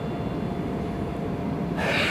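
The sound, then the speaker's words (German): Train approaching outdoors in Franconia, heard as a steady low rumble that runs throughout, with a brighter hiss swelling in over the final moments as it draws near. “Jetzt kommt der Zug.”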